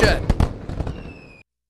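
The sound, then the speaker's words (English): Fireworks explode in a few sharp, crackling bangs in quick succession, then a thin high whistle holds steady and cuts off. “When you want fireworks, you need Sky Thunder Fireworks.”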